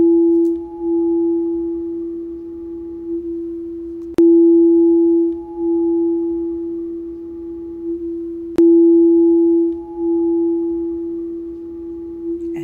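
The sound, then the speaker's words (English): A meditation tone rings as a pure, steady hum. It is struck anew three times at even intervals of about four seconds, and each swell decays slowly before the next, with no voices present. “And listen to this amazing tone.”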